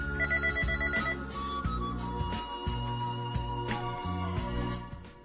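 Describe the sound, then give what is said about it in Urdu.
A telephone rings for an incoming call to a radio phone-in show, sounding as a repeating electronic ringtone melody with sustained tonal notes that carry through the whole clip and fade slightly at the end. “ایک اور کال programme میں شامل کرتے ہیں کیونکہ ابھی دوبارہ آ گئی ہے”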